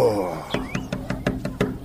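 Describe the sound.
A quick run of about seven knocks on a hujra door follows a short voice, each knock sharp and evenly spaced.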